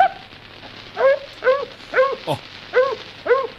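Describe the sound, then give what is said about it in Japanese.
A human voice imitating a dog barking, from a 1929 recording: a quick series of short, sharp yelping barks at a steady, lively pace, bright and nasal, over a faint hiss. “本当に聞こえるな犬に。 犬でしょ”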